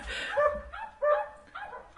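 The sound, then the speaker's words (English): Dogs barking: a few faint, separate barks with a whimpering, yelping quality, spaced irregularly with short quiet gaps, with no voices. “What's that noise? That's a dog. That's and another dog.”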